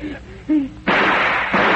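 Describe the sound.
A gunshot rings out in a dark tomb: one loud, sharp blast bursts in partway through and leaves a dense, sustained roaring tail, preceded by brief higher vocal-like sounds.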